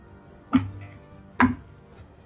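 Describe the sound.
Dice rolled on a table during a Dungeons & Dragons fifth-edition game give two short, sharp clattering knocks a little under a second apart, then a third click starts just at the end, with no talk over them.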